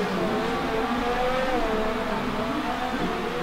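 Race car engine on the exit of a tight corner at the Brazilian Grand Prix, a steady, loud, buzzing drone with a slightly wavering pitch throughout.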